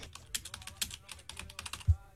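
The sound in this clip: Typing on a computer keyboard by someone also trying to talk, a faint, quick, irregular patter of many keystrokes with a single soft low thump near the end.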